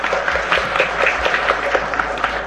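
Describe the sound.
Warm audience applause greeting a senior guest monk at a Buddhist course-opening ceremony, a brief burst of many hands clapping at once, steady and fairly loud.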